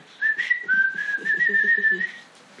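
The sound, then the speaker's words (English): Whistling from a 1928 animated cartoon mouse: a clear, fairly high whistled melody line holds and wavers for about two seconds, bright and alone without speech. “there was a cartoon that debuted in 1928 that featured an animated whistling mouse named Mortimer.”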